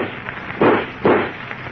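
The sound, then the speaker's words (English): Two gunshots fired point-blank at Superman, whose body the bullets bounce off: a pair of muffled, thudding reports a little under half a second apart, over a dull, band-limited background. “Don't move, I said. I'll shoot. Go ahead.”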